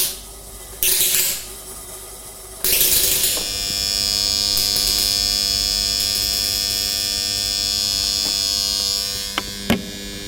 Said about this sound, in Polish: To jest taki odgłos, który... daje zasilacz akumulatora.